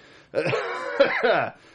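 A person's cough: harsh, rasping voiced bursts that run together for over a second, loud and alone, with no talk around them.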